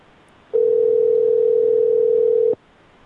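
A telephone dial tone plays while calling someone back. One steady, unbroken mid-pitched tone holds for about two seconds, then cuts off abruptly, with no voices over it.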